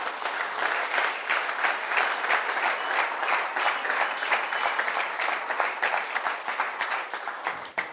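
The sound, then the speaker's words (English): Congregation clapping hands in a church service: dense, continuous applause from many people, steady and loud from start to finish. “Clap your hands for Jesus.”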